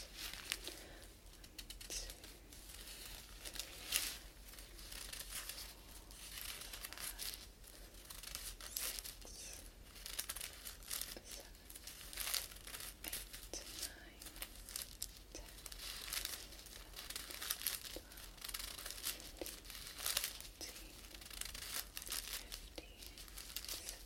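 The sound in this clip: Paper sheets crinkle in an ASMR setting as they are folded and popped back out, producing many quiet, continuous rustles and crackles with frequent small sharp snaps.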